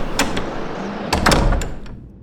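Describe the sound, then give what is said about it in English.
A door is pulled open at a snowbound shelter, giving a few sharp latch clicks and knocks with a short scraping rattle in the middle. The sounds are moderately loud, and no one speaks. “She reached for the door and pulled it open.”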